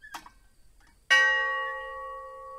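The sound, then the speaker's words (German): A single bell strikes once, a memorial bell atop a standing brick chimney in a village war memorial. It gives a bright clang with a long humming decay, preceded by faint, soft sounds. “Glocken an ihrer Spitze läuten permanent.”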